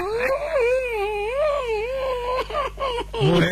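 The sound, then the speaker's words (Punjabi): A man cries in loud, drawn-out wailing moans whose pitch swoops up and down, breaking into shorter sobbing bursts toward the end. “ਓਏ ਹੁਣ ਤੂੰ ਕਿਉਂ ਰੋਣ ਲੱਗ ਪਿਆ?”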